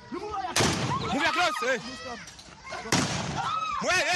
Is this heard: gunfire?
yes